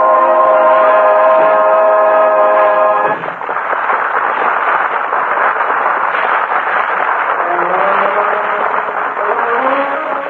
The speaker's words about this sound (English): shoved into a railroad train jammed with passengers and baggage. She's been on that train now for almost 2 hours.